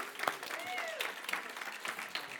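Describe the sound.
A church audience claps for the youth worship team. Many separate, crisp claps are scattered across the moment, moderately quiet and without a steady rhythm.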